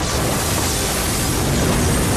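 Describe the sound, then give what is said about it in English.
Explosions wreck a space liner: a loud, unbroken roar of rumbling, crackling noise that stays dense and steady throughout, with no voices. “Just as they fly clear, numerous internal explosions start wrecking the whole space liner until it is finally destroyed in one huge big bang.”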